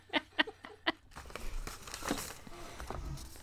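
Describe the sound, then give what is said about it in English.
A paper envelope is ripped open, a ragged stretch of tearing and crinkling paper that follows a few brief, sharp sounds at the start. “You could actually rip the envelope.”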